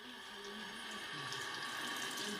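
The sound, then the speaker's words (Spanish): Water runs from a tap while hands are rinsed under it. A faint, continuous splashing flow carries on steadily with no voices. “la experta en higiene hospitalaria Úrsula Pérez Lem recomienda, además de desinfectantes, enjuagar el virus de las manos.”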